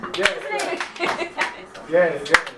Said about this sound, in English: 2.5 claps. Okay. You're almost there. 2.5. Yes. 2.5 claps.